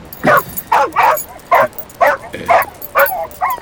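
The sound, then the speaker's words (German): A dog gives a rhythmic series of eight short, high yipping barks with whiny, whimpering tones, each burst separated by a brief pause. “seit wann hast du denn einen Hund”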